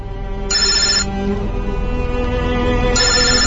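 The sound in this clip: A telephone rings in two bright, trilling bursts separated by a pause of about two seconds, heard over a steady low rumble.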